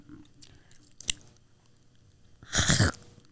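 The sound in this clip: Close-up chewing of an apple for an ASMR attempt: a single sharp click, then a louder, wet crunching burst near the end, with quiet stretches between.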